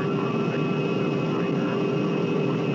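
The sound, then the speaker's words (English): Steady aircraft engine drone as the craft comes in to land, a constant hum with a thin whining tone, unchanging and moderately quiet throughout. “Attention, please. We will soon be landing at Westworld, the ultimate resort.”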